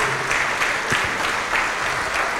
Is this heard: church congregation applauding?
yes